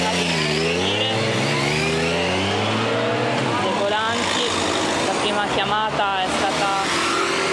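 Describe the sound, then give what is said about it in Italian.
Nibbio police motorcycles pull away from the scene of an abandoned-suitcase alert. Their engines rev up and down repeatedly in rising and falling pitch beneath continuous talk. “stanno andando via anche le moto Nibbio della polizia, che sono stati i primi”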